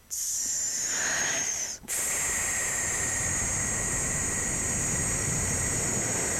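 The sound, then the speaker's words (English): A long, controlled exhalation after a big breath, heard as a steady, loud, breathy hiss with a whistling edge. A brief break comes early on, then the exhale runs unbroken to the end. “I want you to take a big breath and breathe out.”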